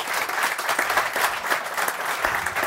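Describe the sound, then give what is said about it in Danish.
Audience applause welcomes a panel of three guests at a Danish investment talk event: steady, dense clapping that holds at an even level for the whole stretch, with no voices over it. “Velkommen til. Giv dem en kæmpe hånd.”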